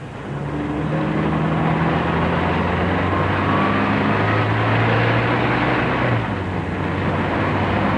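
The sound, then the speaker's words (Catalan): A car drives at full speed along a Dutch highway out of Rotterdam, its engine giving a loud, steady, unbroken drone with a deep hum throughout. “El cotxe corre a tota velocitat per la carretera.”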